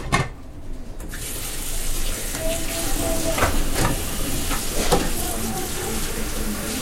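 Water runs steadily from a tap, a continuous, even rush that holds for about seven seconds with no talk over it.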